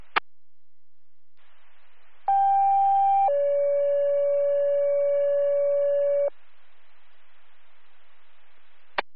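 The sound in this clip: Two-tone EMS dispatch page for a medical call about a fall: a brief higher steady tone steps down to a longer, lower sustained tone, all over a bed of radio hiss, with sharp clicks at the start and end.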